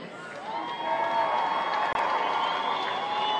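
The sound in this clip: A baseball crowd gives a player stepping up to bat a warm welcome, with loud, steady applause and cheering that holds throughout, broken only by a split-second dropout.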